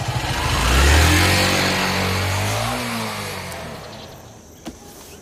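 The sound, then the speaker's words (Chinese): A motorcycle engine revving as it is ridden. A loud, throaty rumble swells in the first second, then holds and gradually fades, with a short click near the end. “你说魏宝库家有的是车，这小子咋还骑台摩托呢？”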